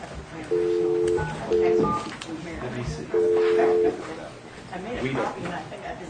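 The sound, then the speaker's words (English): Touch-tone dialing of a counselor's phone number: three clear keypad beeps, the second shorter than the others, spaced unevenly with quieter background sound between them. “If that's acceptable, I'll dial his number.”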